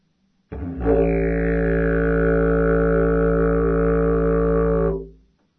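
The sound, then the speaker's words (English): Didgeridoo played with the right side of the lips inside the mouthpiece, producing one loud, steady drone with strong, even overtones that holds for about four seconds before tapering off. “if I put the right side of my face, because I'm right-handed, inside the didgeridoo, the right side of my lips, then you'll hear more like sound, and it will sound like this.”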